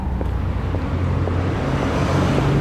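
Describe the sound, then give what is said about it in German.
A car on a street at night, a steady low rumble that holds at an even level throughout, with no voices. “Wieder ein Auto.”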